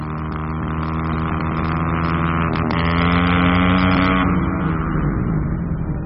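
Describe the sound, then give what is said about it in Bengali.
A black motorcycle's engine roars as it speeds off, a loud, steady, droning growl with strong harmonic tones that holds throughout without a break. “Zeeshan একটা কালো বাইকে উঠে গর্জন করে ছুটতে লাগল।”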